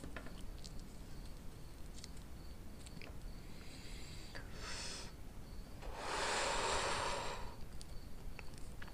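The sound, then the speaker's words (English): Smoke drawn in through the nose during a French inhale, heard as two faint breathy hisses, a short one followed by a longer, fuller one. “I just did a French inhale”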